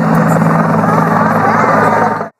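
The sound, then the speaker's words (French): A helicopter passes over a crowd waiting along an avenue for the pope, a loud, steady rotor drone with a deep thrumming hum that holds level and then cuts off abruptly near the end. “Un hélicoptère passe et l'excitation monte.”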